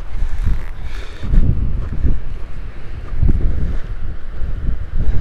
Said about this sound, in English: This wind is killing me though, son. I'm gonna put my hat down.